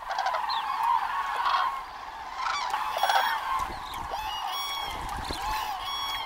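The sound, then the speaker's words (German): Common cranes calling as the flock takes off at dawn: many overlapping loud, honking trumpet calls, continuous and steady throughout. “Kraniche sind Frühstarter. Noch vor Sonnenaufgang fliegen die ersten los und geben damit das Signal, dem alle anderen folgen.”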